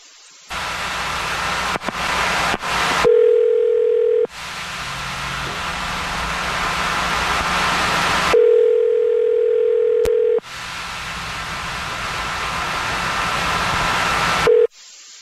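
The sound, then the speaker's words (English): Telephone ringback tone heard while a call is being placed: steady, low-pitched ring tones recur with long gaps filled by loud, continuous hiss, the last tone starting just as the sound ends. “we're about to call him right now”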